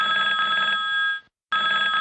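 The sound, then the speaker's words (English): Mobile phone ringing with a steady, high electronic trilling tone that stops briefly after about a second and then starts again, heard alone without talk. “Hang on a second. I forgot to put my phone vibrate. Hello?”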